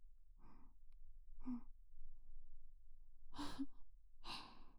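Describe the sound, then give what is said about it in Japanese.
Slow inhaling and exhaling during a breathing exercise: four airy breaths separated by pauses, the first two softer and the last two louder and fuller. “吸って、吐いて、くる。”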